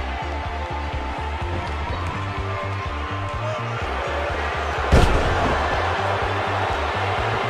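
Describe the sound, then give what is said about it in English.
A wrestling scissors kick landing in the ring during a tag match: one sharp, heavy thud cuts through a loud, steady crowd roar that runs throughout. “Oh, the scissors kick!”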